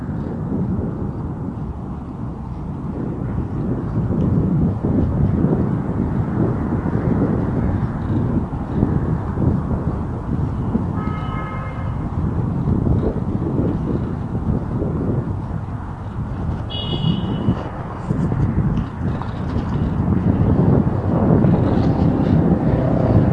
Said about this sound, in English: We're going to listen to the sounds of this bike ride.